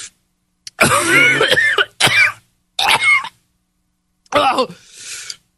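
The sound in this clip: Coughing after swallowing something that caught at the back of the throat: a long harsh coughing fit followed by several shorter strained coughs and throat-clearing bursts, loud and separated by brief silences.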